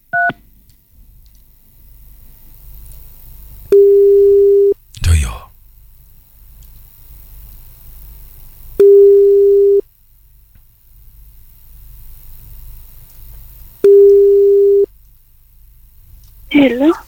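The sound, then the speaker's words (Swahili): Telephone call tones as a call is placed: a brief burst of dialing beeps at the start, then three long, steady mid-pitched tones about five seconds apart, with faint noise and short scuffs in between. “I'm calling you. Pige simu Monica.”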